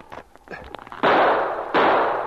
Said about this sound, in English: The men among the trees showed themselves for the barest second, and they fired, and the sergeant missed his target several times. Then one of his shots hit the man at the left.